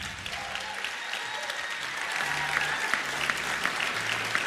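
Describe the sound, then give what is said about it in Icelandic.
Audience applause in a hall honours the sound engineer, a steady, dense wash of many hands clapping that continues throughout and grows slightly louder about halfway. “Jón Skuggi, gefum hún góð klapp.”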